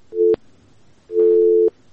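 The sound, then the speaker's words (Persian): Busy tone after a disconnected phone call: two steady, mid-pitched electronic beeps, a short one followed by a longer one, each ending abruptly, with a faint hiss between them and no voices. “تماس شما قطع شد.”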